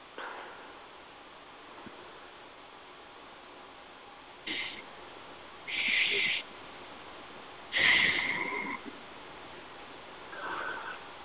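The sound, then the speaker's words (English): Slow deep breaths taken during a guided healing session: a few faint, airy, noisy breaths spaced several seconds apart over a quiet hiss. “And 3 nice deep breaths.”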